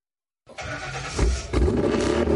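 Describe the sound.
A custom car engine bursts into life and settles into a loud, deep, steady rumble that grows heavier in two steps as the revs rise.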